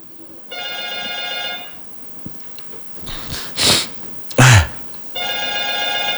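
Telephone ringing for an incoming call to a radio show: two bursts of a bright, harmonic electronic ring separated by a pause, with a few short noisy bursts in between.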